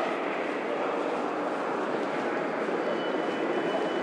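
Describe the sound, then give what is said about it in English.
A train departing from a station produces a steady, broad rumbling roar. It holds at an even level throughout, with no distinct clanks or horn standing out from the continuous noise. “that was the sound of the 5 minutes past train going, I think.”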